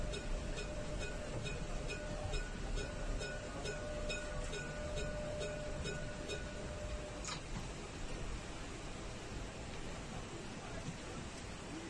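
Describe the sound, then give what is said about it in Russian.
Tram driving along a street in France: a steady rolling rumble with a faint electric whine that cuts out partway, and light regular ticking over it. “Такой денечек из Франции, заурядный. Трамвай едет, едет, едет, едет.”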